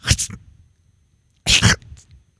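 A person vocally imitates a weak cough, producing two short breathy bursts separated by a pause of about a second.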